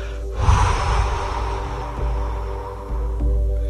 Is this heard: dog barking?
no